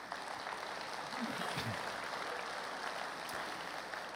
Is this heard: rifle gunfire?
no